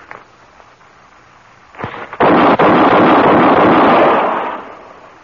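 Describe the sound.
Gunshots from a gun: one sharp crack, then loud, distorted blasts that blend into a sustained, harsh roar lasting about two seconds before it fades away.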